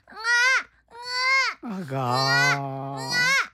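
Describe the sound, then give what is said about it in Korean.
A voice imitating a baby crying: four wailing cry bursts separated by short gaps, the third longer and lower-pitched, each rising and then sliding down at its end. “아가, 우지 마라, 내 새끼야. 너도 너희 모친이 죽은 줄을 알고 우는 것이더냐? 아니면 배가 고파서 울음을 우는 것이냐?”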